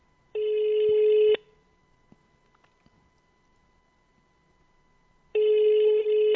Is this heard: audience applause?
no